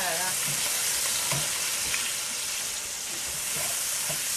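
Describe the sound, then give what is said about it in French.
Guanciale sizzling and frying in a pan, a steady, fairly soft hiss and crackle with occasional louder pops as the pieces are stirred. “Donc là, on fait revenir donc toujours le guanciale dans cette poêle.”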